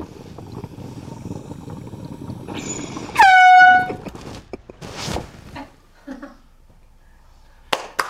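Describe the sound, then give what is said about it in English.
A single loud air horn blast lasts under a second. Its tone dips briefly at the onset and then holds steady, set among low background noise and a few scattered, softer sounds. “I might accidentally try to hit this air horn and blow this dab rig.”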